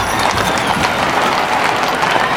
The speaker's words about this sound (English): A team of matched white horses pranced saucily on the cobblestone street.